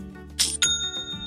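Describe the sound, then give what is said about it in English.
An online store's sale notification chime rings out as two bright, bell-like dings in quick succession, their clear high tones sustaining and slowly fading. “And there is that sound again. It's the sound of another sale on Shopify,”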